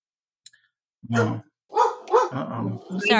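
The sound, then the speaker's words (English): A dog barks several times in a few short bursts after a brief faint sound at the start. “Sorry, her dog threw me off.”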